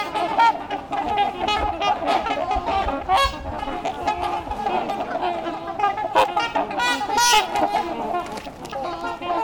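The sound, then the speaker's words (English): A flock of trumpeter swans calls with many loud, brassy, overlapping honks. The chorus is dense and continuous and keeps rising and falling in irregular bursts throughout. “I'm in a flock of trumpeter swans.”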